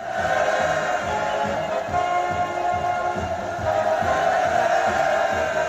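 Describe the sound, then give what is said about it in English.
A massed crowd in Kim Il-sung Square, Pyongyang, roars its welcome as China's leader Xi Jinping arrives, a sustained, steady din of many voices that holds at an even level throughout. “the sounds of China's leader Xi Jinping being welcomed as he enters Kim Il-sung Square right in the heart of Pyongyang.”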